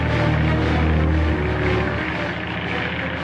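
A propeller airplane coming in to land, heard as a loud, steady engine drone with strong low humming tones beneath a broad roar. It continues unbroken throughout with no voices.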